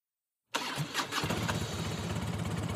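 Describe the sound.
An engine starts up after a moment of silence. It cranks briefly, catches, and settles into a steady, even running rumble.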